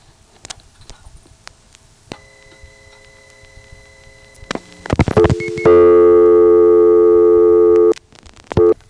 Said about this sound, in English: There's the tone. That means the TSPS half of this connection is sitting with a reorder.